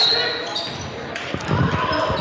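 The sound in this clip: Basketball dribbling on a court during a game, with a player dribbling between his legs. Quick bounces grow clearer toward the end, over steady crowd noise and voices.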